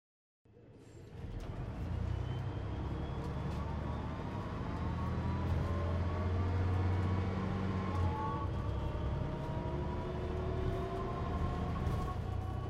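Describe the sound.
Inside a moving bus, a steady low engine rumble and road noise run continuously, even and moderately loud, with no talk.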